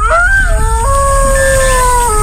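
Electronic howl from a robotic wolf with large fangs and flashing red LED eyes: a loud, sustained tonal wail with a slight early rise, then a held pitch that steps down near the end, over a low rumble.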